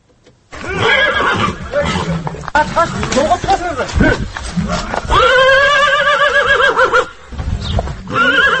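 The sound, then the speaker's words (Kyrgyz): Neighing of a ten-year-old purebred pacer horse at a horse-breeding farm, several loud, strongly tonal whinnies in quick succession with wavering pitch and short breaks between calls. “Бул Орто Азия боюнча алдына бир да жоргону чыгарбаган айтылуу патрон жоргосунун үнү.”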